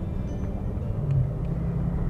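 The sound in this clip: A car being driven on a Monday gives off a low, steady engine and road rumble, faint and continuous, with no talk over it.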